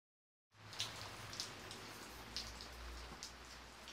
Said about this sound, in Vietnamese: sao hôm nay lại mưa gió đột ngột thế cơ chứ?